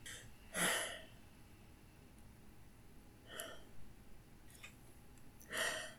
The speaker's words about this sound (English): And let me just take a breath.